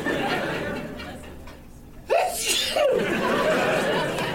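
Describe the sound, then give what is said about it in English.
A single sharp, loud sneeze from an allergy attack bursts out midway, with murmured voices and a little laughter before and after it. “But I suddenly got a serious allergy attack coming on. I'm gonna sneeze, you guys.”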